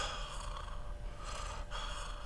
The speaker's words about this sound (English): you get really shallow breath people, and you hear them like,